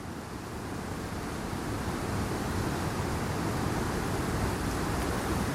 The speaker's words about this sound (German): Tausende Liter Wasser stürzen unaufhörlich in die Tiefe. So kraftvoll, so rhythmisch, dass es fast meditativ wirkt.